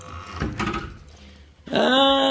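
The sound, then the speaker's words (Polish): A door creaks open at a doctor's office: after a stretch of soft, muffled rustling, a loud, steady, high-pitched hinge squeal starts abruptly and holds to the end. “Tu są drzwi doktora Gotarda. Proszę wejść.”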